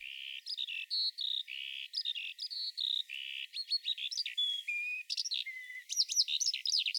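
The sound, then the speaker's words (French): Skylark song: a rapid, continuous stream of high, bright chirps, whistles and trills that keep changing in pitch and pattern, grouped into short bursts with tiny gaps between them. “Alors ça, c'est un extrait de chant d'alouette.”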